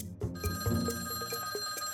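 A telephone bell rings, a bright, steady metallic ringing with a few sharp strikes pulsing through a sustained tone, heard alone without voices.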